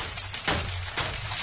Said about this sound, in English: Got you campers with a little hail.